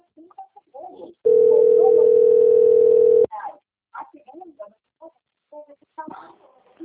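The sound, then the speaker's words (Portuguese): A telephone ringing tone signals an incoming call: one long, steady electronic tone lasting about two seconds, with people talking before and after it. “Estão ligando aqui.”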